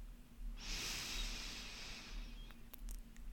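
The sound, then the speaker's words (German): A long, steady inhale through the left nostril, the right one held closed, during an alternate-nostril breathing exercise. A soft airy hiss lasts about two seconds, followed by a few faint clicks. “Und jetzt nimmst du einen tiefen Atemzug durch den linkes Nasenloch.”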